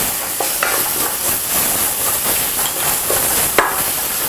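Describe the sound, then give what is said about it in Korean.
Chili seasoning paste sizzles as it is stir-fried in oil, turning into chili oil: a loud, steady frying hiss broken by a few sharp stirring knocks and scrapes, with no talk. “그 다대기를 여기다가 넣고 볶으세요. 자, 그러면 아주 즉석에서 고추기름이 되죠?”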